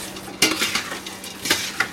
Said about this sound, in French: Première étape du bœuf stroganoff, je remets mes oignons.